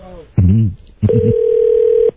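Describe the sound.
A telephone dial tone sounds as a call is placed: a steady, unbroken mid-pitched tone holds for about a second, following a short burst of voices.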